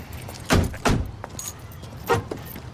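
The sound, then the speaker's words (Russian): People get out of a car with a few soft thuds of car doors, faint rustling and a light jingle like keys between them, all quiet with no talking. “Они вышли из машины.”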